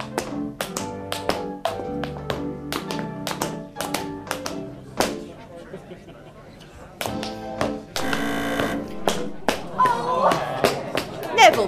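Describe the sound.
Tap dancing by a 10-year-old girl at a village show: sharp, quick metal taps in irregular bursts over music. The taps pause midway, then return with a denser flurry and lively rhythms toward the end.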